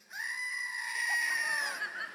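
A toy goat lets out one long, loud, high-pitched bleating scream that holds for about two seconds without a break.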